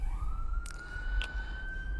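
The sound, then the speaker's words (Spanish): An ambulance siren sounds as a single sustained high tone that rises gently in pitch, fairly faint over a low rumble of traffic noise. “la ambulancia creo que va por el rojo”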